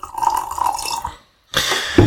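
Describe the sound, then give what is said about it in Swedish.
Coffee being poured into a cup makes a short, loud, splashy liquid trickle with a glassy ring, broken by a brief pause. “Nu hällde jag upp lite mer kaffe på ett sätt som inte kommer gå för producenten att klippa bort.”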